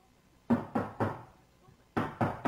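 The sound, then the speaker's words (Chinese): Knocking on a courtyard gate at bedtime in a dark house during a power cut: three sharp, hollow knocks in an even rhythm, a short pause, then another run of three knocks, fairly loud against near silence. “是敲门的声音，何婷知道那是来自院门的声音。”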